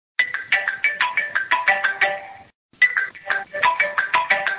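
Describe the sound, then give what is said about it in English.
Electronic chime marking the end of a speaking turn in a mediation session: a quick, bright melodic pattern of repeated ringing notes, played twice with a short gap between. “And one last thing will be the signal that you'll hear when your turn is ending. It'll sound like this.”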